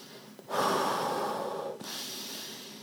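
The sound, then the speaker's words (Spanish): A slow, continuous breath taken during a breathing exercise, a steady airy rush lasting over a second that flows without a stop into another long, even breath, soft and alone. “busca iniciar el ejercicio respiratorio siempre desde la relajación y prestando atención a que el aire nunca se pare. Es decir, que la respiración sea continua. La inhalación,”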